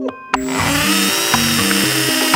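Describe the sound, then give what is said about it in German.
A hammer drill bores a hole into tiles with a loud, steady mechanical whine whose pitch shifts in steps as it works, running without talk after a brief start. “ein Loch in Fliesen bohren? Und dann ungefähr 10 Sekunden und ich habe ein 1A-Loch gebohrt. Es macht so einen Spaß, erstmal durch diesen Widerstand zu bohren und dann kommt dieser Hohlraum.”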